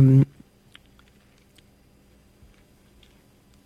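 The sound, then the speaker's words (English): A few faint, sparse mouse clicks sound on a computer while someone browses a web page. A brief voice is heard at the very start. “let me just try one more thing to see if I can see any more, because the page I'm clicking on is no longer in use.”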